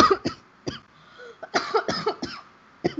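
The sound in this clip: A person coughs from post-nasal drainage running down the throat, in many short, harsh, throaty bursts. The coughs come in irregular clusters with brief pauses and are fairly faint.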